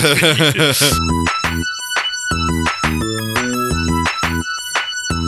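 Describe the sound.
Theme song from a Barbie movie, loud and bright: a rapid warbling synth run opens, then rhythmic stabs of synth chords carry a bouncy pop melody.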